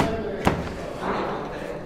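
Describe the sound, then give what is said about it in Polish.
A single heavy thud sounds as doors are being dismantled in a building set for demolition, with people talking around it. “Panowie robicie? Demontaż. Demontaż drzwi.”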